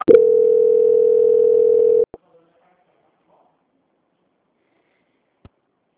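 A telephone tone sounds during a call transfer: one loud, steady tone lasting about two seconds, cut off by a click, then near silence with one faint click later.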